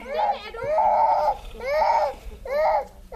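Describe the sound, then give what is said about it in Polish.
A child cries under a baobab tree among a group of village children, giving four loud, wailing bursts with short breaks between them. “Pod baobabem grupka dzieci. Jedno płacze, widząc poruszenie naszym przyjazdem.”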